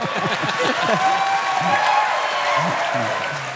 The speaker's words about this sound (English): has applause for God, guys. Yeah, that, give it up for God.